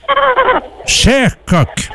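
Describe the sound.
Rooster calls at an outdoor ceremony: after a short stretch of talk, a few loud, arching cries ring out. The first is longer and the next two are shorter and clipped.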